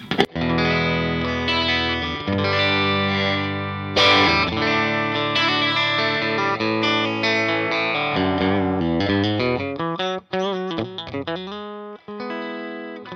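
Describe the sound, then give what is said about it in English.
Electric guitar in a clean tone on the bridge pickup, played through a Green Beret speaker, rings out in sustained chords and single notes. A steady stream of many picked notes grows quicker and choppier toward the end, with no talk. “my clean tone on the bridge sounds like this.”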